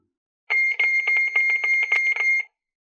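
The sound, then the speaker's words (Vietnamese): A shrill electronic alarm rings from a wristwatch: a rapid series of high-pitched beeping pulses lasting about two seconds, heard alone. “Thanh âm chói tai đột nhiên từ chiếc đồng hồ nhìn có vẻ bình thường đeo trên cổ tay truyền ra.”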